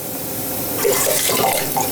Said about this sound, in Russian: И кипящую воду и мясо добавляем